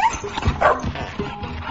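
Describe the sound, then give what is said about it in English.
A poisoned dog that is barely breathing whimpers and yips in short, strained bursts. The sounds are loud and close, with no clear full barks. “How many times are you going to kill my dog,”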